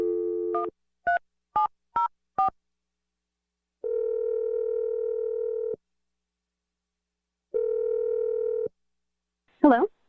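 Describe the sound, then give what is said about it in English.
Telephone dialing a number: a steady line tone, then four short dialing beeps in quick succession, a pause, and two long, even ringback tones separated by silence. A voice briefly answers at the very end. “So here we go. I'm going to dial the number.”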